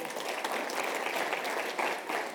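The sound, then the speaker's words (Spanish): An audience breaks into applause after a talk, a dense and continuous crackle of many hands clapping. It stays even and sustained throughout, with no voices standing out. “Vídenles un aplauso, por favor.”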